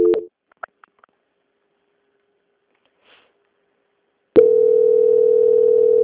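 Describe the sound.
Telephone line tone during a call transfer: a short beep and a few faint clicks, then a long silence. A steady, continuous tone starts abruptly and holds unbroken to the end.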